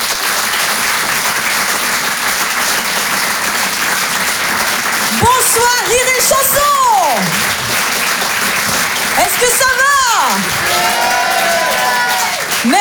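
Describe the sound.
An audience applauds to welcome a comedian onto the stage, with loud, dense clapping sustained throughout and a few cheers or whoops rising above it now and then.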